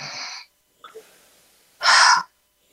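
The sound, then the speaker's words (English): Deep breaths drawn in through the nose: two loud, airy inhalations separated by a pause, with faint soft breathing sounds in between. “And let's take in three deep breaths in through our nose.”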